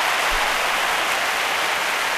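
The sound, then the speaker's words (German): Applause sound effect, a dense continuous wash of clapping hands, loud and even from start to finish with no talk over it. “Applaus.”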